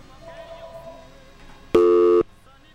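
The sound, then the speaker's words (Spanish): A telephone busy tone sounds after a dropped call: one loud, steady, mid-pitched beep lasting about half a second, following faint talk. “Se le cortó la llamada a la hermanita.”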